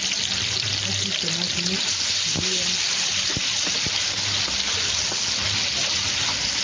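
Tomatoes cooking in oil give off a steady, dense sizzle that fills the whole clip, broken by a few sharp pops and crackles.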